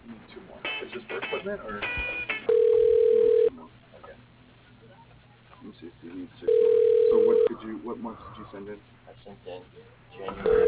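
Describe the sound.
A telephone line rings unanswered during a call transfer: two long, steady ringback tones sound, and a third begins at the very end, with narrow-band phone-line voices talking between them.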